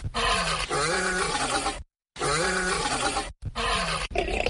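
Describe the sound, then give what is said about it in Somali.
A lion roars at a lion park in Hargeisa: loud, drawn-out, harmonic groaning roars with wavering pitch come in three bursts, split by abrupt silences. “markii uu ku dhuftay cida libaaxu caanka ku yahay waxaan in badan daymooday xaggayga dambe”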